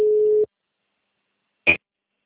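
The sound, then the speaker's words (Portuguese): Telephone ringback tone while calling someone: one steady beep that cuts off within half a second, then silence and a single short click. “Estou ligando aqui para ela.”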